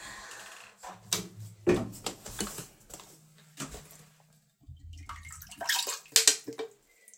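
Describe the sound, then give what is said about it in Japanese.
Collected urine is poured into a toilet, splashing in uneven bursts: several louder gushes of liquid separated by short pauses, with no talk. “このおしっこをちょっと、水道に捨てるのが嫌なので、ちょっとトイレの方に捨てたいと思います。”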